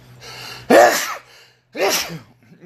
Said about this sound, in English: sneeze. That came from out of nowhere.